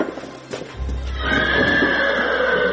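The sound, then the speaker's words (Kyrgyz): A horse neighs among horses gathered together in one place, mostly from the local village; after a brief muffled start, a long, loud, high whinny holds steady to the end over a low rumble. “Аттарды ушул жерге чогултуп атайын бир жерге.”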